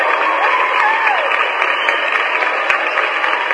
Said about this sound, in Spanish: ya tenemos listos los aplausos